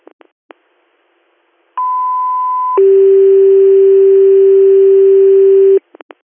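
Radio dispatch paging tones for an ambulance call: a loud steady higher beep lasting about a second, then a longer, lower continuous tone of about three seconds, with a few short clicks before and after.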